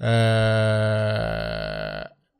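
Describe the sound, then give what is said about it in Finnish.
A loud, drawn-out human burp of about two seconds, steady and low at first and then trailing off in a rougher rumble, with no other sound around it. “anteeksi, röyhtäisi”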